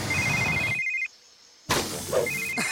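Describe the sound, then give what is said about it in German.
A handheld device rings with an incoming call: a bright electronic ringtone in two bursts separated by a quiet gap, over busy background noise. “als sein Pawpad sich meldete”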